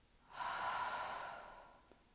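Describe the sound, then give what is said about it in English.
A single long, deep breath exhaled through the mouth during a guided breathing exercise. The airy rush swells quickly, holds steady, then slowly fades. It is heard alone, without talk. “Inhale deep within. Exhale out through your mouth.”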